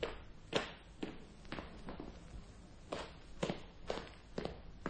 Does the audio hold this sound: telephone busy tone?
no